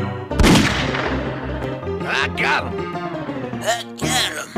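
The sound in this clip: Gunfire in the video game Grizzly Gulch: one sharp, loud blast opens, followed by a decaying ring and further game sounds with a few shorter bursts.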